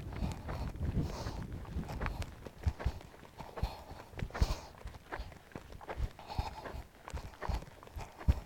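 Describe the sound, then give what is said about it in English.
Horse trotting during a riding session, with a steady, rhythmic patter of many hoofbeats and light scuffing throughout, fairly soft, with no voices. “Oh, such a beautiful trot.”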